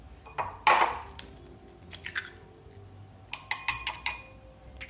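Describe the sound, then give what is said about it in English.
Two large eggs are cracked in a kitchen: a loud sharp rap is followed by a scatter of smaller knocks, cracks and light clinks of kitchenware, all crisp and close together with no voices. “Okay, now we need two large eggs, which I have here. I'm gonna crack them.”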